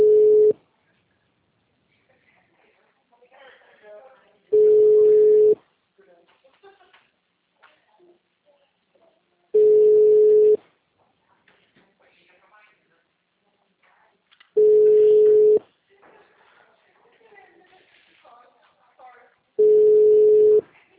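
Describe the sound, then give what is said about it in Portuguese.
A telephone tone sounds after a dropped call to an HR line. Five loud, steady beeps of about a second each repeat at regular intervals of roughly five seconds, with faint background sounds in between. “Eu estava aguardando para falar no RH, mas caiu a ligação.”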